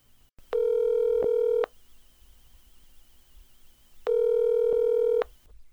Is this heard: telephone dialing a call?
yes

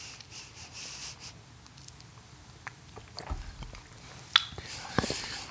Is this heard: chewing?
yes

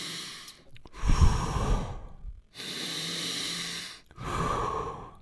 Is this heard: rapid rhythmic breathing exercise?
yes

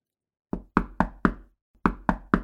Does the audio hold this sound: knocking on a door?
yes

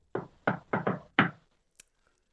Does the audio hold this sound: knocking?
yes

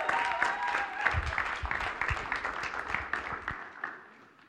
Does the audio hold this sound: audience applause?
yes

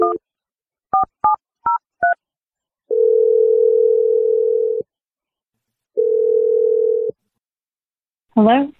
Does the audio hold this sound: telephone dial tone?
yes

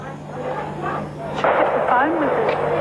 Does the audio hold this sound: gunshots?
yes

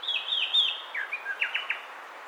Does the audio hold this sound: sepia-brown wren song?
yes

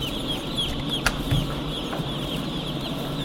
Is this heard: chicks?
yes

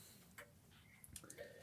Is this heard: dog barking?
no

